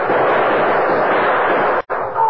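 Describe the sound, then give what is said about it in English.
Gunfire in a shootout roars as a dense, continuous burst of loud noise, broken only by one brief dropout near the end before it resumes. “But he kept on shooting, slowly, deliberately, making sure every bullet found its mark.”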